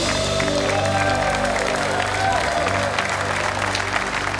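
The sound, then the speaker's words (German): Studio audience applause: dense, steady clapping from many hands that holds at an even, fairly loud level for the whole stretch. “das ist dein Applaus.”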